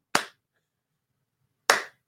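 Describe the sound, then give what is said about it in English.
Sparse hand claps from a tiny audience in a bar: two sharp, isolated slaps about one and a half seconds apart, each crisp and short, separated by near silence. “So if I got one clap, I counted that as a non-bomb.”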